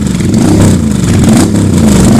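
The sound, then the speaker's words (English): Motorcycle engine revving as a sound effect: a loud, steady, low engine drone with a slight wavering pitch throughout, no talk. “I had it in my head, you know, okay, motorcycle sound and the fish”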